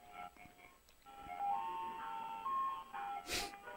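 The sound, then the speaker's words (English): A faint ice cream truck jingle, a simple tonal melody, plays outside an apartment as the truck drives past. A short breathy burst of noise comes near the end. “It's parked right outside our apartment. It's coming by. Okay, it's going away. It's driving out. It's leaving. Can you believe that? We never, ever, ever have an ice cream truck.”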